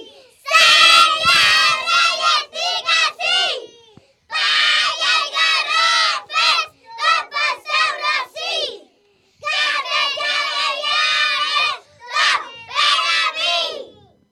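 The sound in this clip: A crowd of children loudly chants a song together in bright, shouting voices. The chanting comes in several bursts of phrases separated by short pauses.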